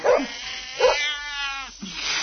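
A frightened cat meowing a few times, one call long and drawn out, with no talk over it.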